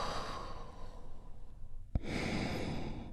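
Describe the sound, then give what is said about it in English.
A deep breath drawn in and then let go during a guided relaxation, soft and steady at first, then a brief click and a fuller, louder breathy exhale that carries to the end, with no talking. “we do that by taking one great big healing breath together. Here we go. And release.”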